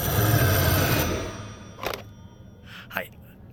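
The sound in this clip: Telephone ringing with an ominous-sounding ring: a bright, sustained ringing tone fills the first second, then fades, and a couple of brief thumps follow in the quieter stretch.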